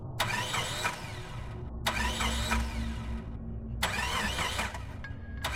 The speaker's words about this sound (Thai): รถเสียสตาร์ทไม่ติดเลย